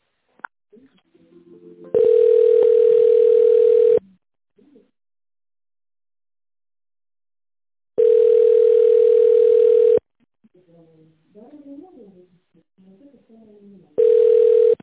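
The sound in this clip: Telephone ringback tone plays during a call transfer: steady mid-pitched tones of about two seconds each, separated by longer silences, with the last one cut short and brief talk in one gap.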